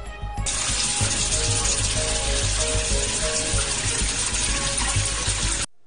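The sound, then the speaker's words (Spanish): Water gushing steadily from a tap into a humble Venezuelan home, the water dark brown and muddy; a continuous broad rush with no voices that runs unbroken and then cuts off abruptly near the end. “Así llega ahora el agua a los hogares humildes de Venezuela. Así, esa agua marrón oscuro.”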